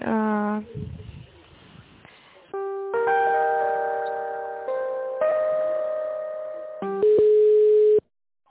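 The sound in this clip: Telephone tones play while an office call is transferred to another line: short electronic beeps, then several long, steady ringing tones that shift pitch and cut off abruptly at the end.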